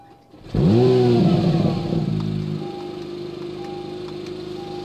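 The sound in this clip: A car engine in quiet mode starts abruptly and surges up in pitch for a brief rev. It then drops back and settles into a steady, even idle hum.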